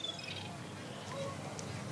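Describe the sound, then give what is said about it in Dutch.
Seagulls screaming on the seaside pier at Scheveningen, faint high calls rising briefly out of a steady, noisy background. “maar de meeuwen schreeuwen... hier op de pier van Scheveningen”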